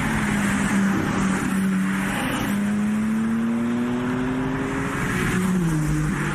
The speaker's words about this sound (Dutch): Ja, een bescheiden geluidje maakt die BMW.